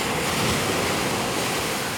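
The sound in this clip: Sea waves wash onto a beach at night at a turtle hatchery release, a steady, loud, unbroken rush of surf without distinct breaks or voices.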